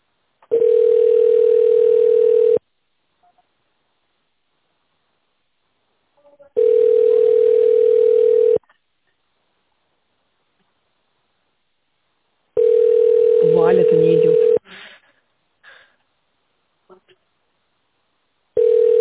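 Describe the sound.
Ringback tone of an unanswered call to a construction company line: steady mid-pitched tones about two seconds long, repeating every six seconds. There are four in all; the last is cut off, and a faint rustle follows the third.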